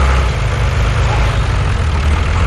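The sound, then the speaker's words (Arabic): New tractor engine idling: a loud, steady, low rumble that runs unbroken throughout. “وبصحة تراكتور جديد”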